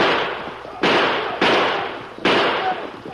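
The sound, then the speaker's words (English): Gunfire in a radio drama shootout near a cave entrance: several loud, sharp shots at irregular intervals, each followed by a long, ringing decay. “Near the entrance to the cave, they were met with gunfire.”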